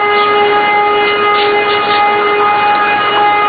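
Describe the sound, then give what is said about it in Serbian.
A civil defense siren sounds over North Kosovska Mitrovica, a small town, with a loud, steady, unbroken tone holding for several seconds with no other sounds. “Kada se sirena oglasila iznad naizgled mirnog gradića, poznatog kratkog imena Severna Kosovska Mitrovica”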